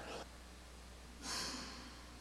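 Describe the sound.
Two short, breathy sniffles from allergies, faint and hissy, come alone against a quiet background, one at the start and a slightly stronger one about a second later.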